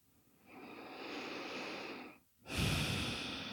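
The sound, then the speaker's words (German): Deep breathing in and out during a German-language guided meditation: a long, breathy inhale, a short pause, then a louder, rushing exhale. “Atme nochmal tief ein und aus.”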